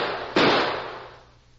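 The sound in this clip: A single gunshot fired during an armed confrontation: one sharp, loud crack that leaves a long, fading tail.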